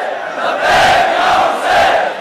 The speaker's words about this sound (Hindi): लब्बैक या हुसैन और शहादत सआदत के नारों की गूंज में